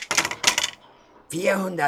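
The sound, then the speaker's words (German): Three dice clattering in two quick, rattling bursts during a game in a hut, followed by a brief pause and then a voice speaking. “In einer Hütte spielen Asterix und Miraculix, der Druide, gerade ein Spiel mit 3 Würfeln.”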